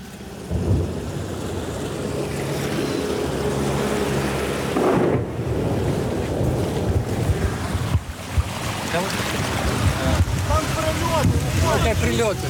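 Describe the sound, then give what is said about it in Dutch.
Steady engine drone of small boats carrying evacuated residents through deep floodwater with oil floating on it, a loud continuous rumble mixed with rushing, wind-like noise throughout. “Het ene na het andere bootje vaart langs.”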